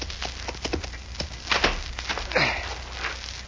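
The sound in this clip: Horse hooves clip-clop as a rider approaches a big ranch house, a steady run of many hoofbeats over a constant background hiss.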